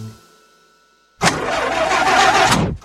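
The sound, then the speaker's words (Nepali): An old, broken-down car engine starts abruptly after near silence, bursting into a loud, rough, steady roar that holds for about a second and a half before cutting off. “होइन कतिन्जेलसम्म यस्तो बिग्रिएको गाडी चलाउनु अब त अर्को गाडी लिनुहोस्”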